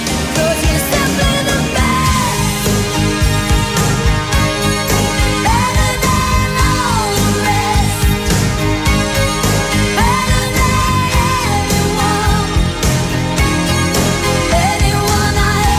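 A 1988 pop-rock recording of a song plays loudly and continuously, with a sung lead vocal carried over a dense full-band backing.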